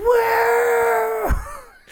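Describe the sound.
A voice imitates wrestler Sandman's primal scream at WrestleMania with a loud, drawn-out yell held at a steady pitch for over a second, then breaking off into a shorter falling groan.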